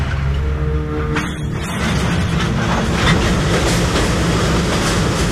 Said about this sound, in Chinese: 京张铁路曲曲折折地穿梭于山峦之间，途经隧道、险峰，连接着北京与张家口。